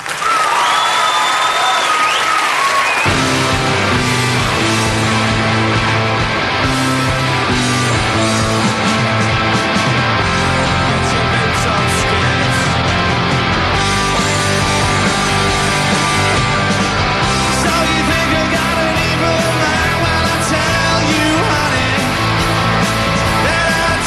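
Long, continuous applause and crowd noise as an audience welcomes a loud guitar rock band onto the stage, a thick, unbroken wash of clapping with occasional yells that holds steady for over twenty seconds.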